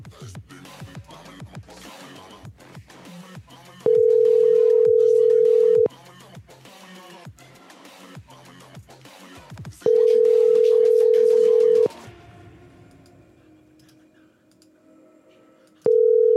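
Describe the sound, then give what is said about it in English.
Steady telephone line tone from a phone, sounding in long bursts of about two seconds separated by gaps, three times with the last cut short, alongside busier background sound between the tones. “What's going on with this guy's phone? Come on. I think he's on the phone. I'm trying to get him to hang up.”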